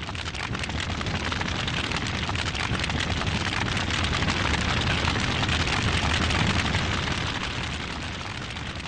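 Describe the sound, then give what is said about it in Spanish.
Dense, steady crackling of dry grass burning in a wildfire during a hot drought, with many overlapping pops and snaps forming a loud, continuous roar that eases slightly near the end, with no voices. “Durante la noche fría se escuchaba un crujir de los pastos envueltos en llamas”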